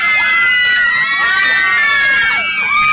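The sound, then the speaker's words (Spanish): A crowd of women shouts and screams excitedly in a loud, continuous, high-pitched din of overlapping voices that holds steady throughout. “Ay, Dios mío, ¿por qué me gritan las mujeres? ¿Por qué estarán emocionadas las mujeres”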